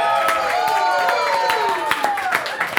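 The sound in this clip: An audience claps for a guest at a Miami improv gathering, with steady applause and voices talking over it. The clapping thins into a few separate claps near the end.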